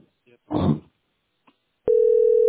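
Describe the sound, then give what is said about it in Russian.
A landline telephone gives a continuous, steady dial tone after a few brief clicks and a short burst of noise, and the tone holds unbroken to the end. “Я звоню на обычный городской.”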